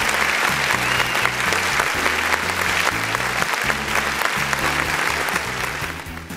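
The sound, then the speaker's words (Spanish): Crowd applause, loud and dense, with continuous clapping that stays level for most of its length and eases off slightly at the very end. “Y este aplauso de buena onda, este aplauso de buenas vibras va para ustedes, muchachos.”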